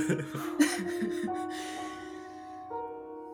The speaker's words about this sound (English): just like takes in deep breath